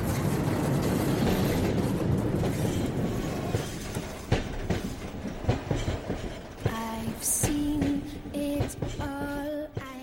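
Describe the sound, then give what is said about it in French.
A train arriving on the rails rumbles in with a loud, dense clatter and rhythmic clickety-clack of wheels, then sustained high squealing tones rise from the wheels as it slows, with no talk. “dans euh, les rails d'un train, le... Attention, ne reste pas sur la voie, le train arrive.”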